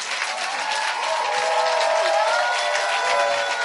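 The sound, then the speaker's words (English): A church audience claps after a testimony, a dense and steady round of applause that stays at one level throughout, with faint voices mixed in. “Clap for Paula's testimony.”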